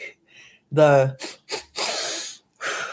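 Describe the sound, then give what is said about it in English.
Deep breath demonstration for calming self-regulation: a brief voiced sound, then a long, loud, breathy rush of air, and a second shorter breath after a pause. “So like deep breaths is my thing mainly.”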